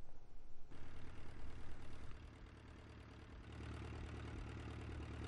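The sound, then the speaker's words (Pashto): Boat engines heading to a dog island in the Indus near Karachi: a low, steady mechanical drone with a pulsing, uneven level at first, then a smoother hum that grows slightly fuller toward the end. “دا سپی چې کله هم د ورتلونکو کشتو د انجنونو آواز واوري نو دې ته ورغونډېدل شروع شي.”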